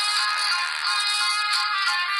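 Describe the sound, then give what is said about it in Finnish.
A mobile phone ringing: a bright, steady electronic ringtone with high tonal layers plays without pause, and no one speaks. “Kato, mulla soi puhelin.”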